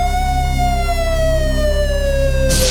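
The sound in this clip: An emergency vehicle siren sounds as one loud, sustained wail that slowly falls in pitch, heard alone, with a brief burst of noise at the very end.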